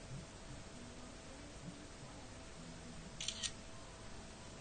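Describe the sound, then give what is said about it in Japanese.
A camera shutter fires once as a photo is taken: a brief, crisp click standing out from a faint, steady hiss. “今写真を撮りましたので”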